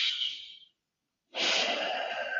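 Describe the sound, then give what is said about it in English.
Slow, easy breathing: a soft airy breath fades out, a silent pause follows, then a longer, fuller breath rushes in and holds steady. “I want you to say, what is my true genius? And then I want you to take three easy breaths.”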